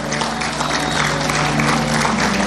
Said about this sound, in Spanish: Un aplauso para Vicky.